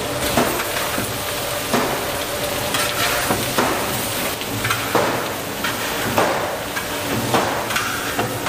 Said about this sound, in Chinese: 豆瓣酱烤香出色之后，加入适量的老抽，给入一定的底味。